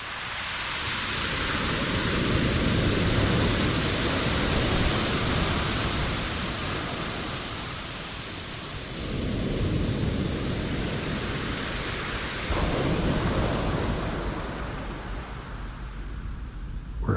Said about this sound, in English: I'd like to share with you the sound of the most musical beach in the world to my ears. It's called Rialto Beach.